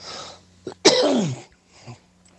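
A single harsh, forceful cough from a man, preceded by a short catch of breath and followed by a faint trailing exhale, with no talk around it.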